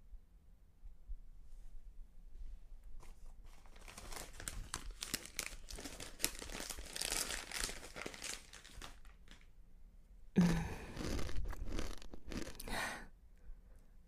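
A snack bag of food is crinkled and rustled open, with soft, irregular plastic crackling in scattered bursts and one sharper, louder crunch partway through, all fairly faint.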